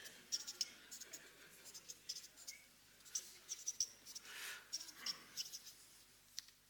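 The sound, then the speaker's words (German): Faint scratching of a pen writing on paper: many short, irregular strokes in quick bursts with brief pauses between them. “Aber ich schreibe das mal auf.”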